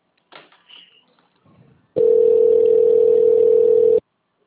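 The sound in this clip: A steady mid-pitched telephone line tone plays while a call is transferred to an office extension. It holds for about two seconds after a few faint sounds, then stops abruptly.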